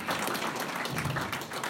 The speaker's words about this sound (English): I think that deserves a clap.